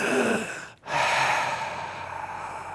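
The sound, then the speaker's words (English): Deep, slow breathing: two long, airy breaths separated by a brief silent pause, the second easing off gradually, heard alone with no talk. “Let us take a moment to breathe.”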